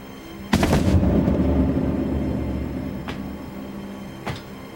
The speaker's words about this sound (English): Jasper steps outside. You're dismissed, Colonel. And sees Mazur shoot Cameron in the gut.